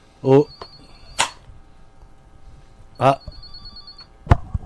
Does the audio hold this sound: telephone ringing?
yes

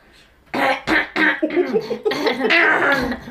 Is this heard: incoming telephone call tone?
no

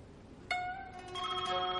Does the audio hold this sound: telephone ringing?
yes

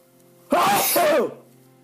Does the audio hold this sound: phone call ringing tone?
no

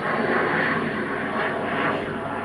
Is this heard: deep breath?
no

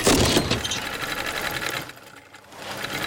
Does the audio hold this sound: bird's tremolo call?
no

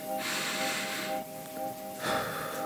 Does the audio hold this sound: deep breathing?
yes

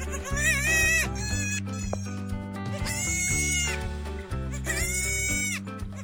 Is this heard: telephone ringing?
no

